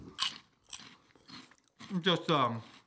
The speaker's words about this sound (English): chewing on some delicious pork rinds here.